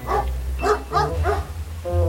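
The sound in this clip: A dog barks a few times in short, throaty yaps while on a countryside trail through freshly cut hay fields, over a low steady hum.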